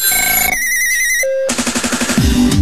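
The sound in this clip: An electronic telephone ringtone signals an incoming call at a radio station, with bright synthetic tones that shift through several distinct patterns, loud and with no voices over them.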